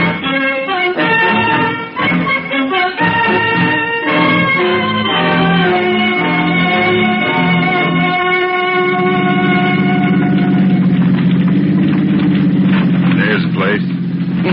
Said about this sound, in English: Turn off the motor.